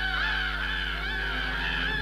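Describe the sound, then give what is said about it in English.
A flock of birds flies across the sky above treetops, heard as a steady, dense wash of honking calls with a wavering high tone that holds through the whole clip, with no voices. “He looks up to see a flock of birds flying across the sky above the treetops.”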